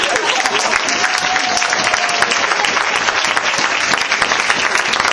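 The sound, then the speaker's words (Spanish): Loud, dense applause from a congress audience, a steady wash of many hands clapping for the whole stretch without a break. “Sin duda lo emocionante es que si aplaudís es porque pensáis que también es mi congreso.”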